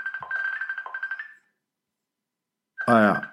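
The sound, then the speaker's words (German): A phone ringtone for an incoming call plays as a pulsing, melodic electronic tone for about a second and a half, then stops; after a short silence a brief burst of voice follows. “Ruft hier jemand an?”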